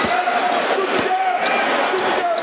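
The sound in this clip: A basketball bounces on the court during a game, giving a few sharp thuds over a steady, loud crowd murmur.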